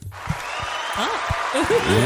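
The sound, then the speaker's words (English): Applause for the guests, a continuous noisy patter with voices talking and calling out over it, growing a little fuller after the first second. “Round of applause for our guests.”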